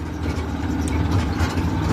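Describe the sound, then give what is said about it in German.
A red motorcycle tricycle with a metal sidecar moves slowly along narrow gravel roads in Davao, Philippines, its engine a steady, low, rumbling drone that runs without pause through two seconds. “Das rote Tricycle kommt nur langsam voran. Das Motorrad mit angehängtem Metallgehäuse holpert über enge Schotterwege.”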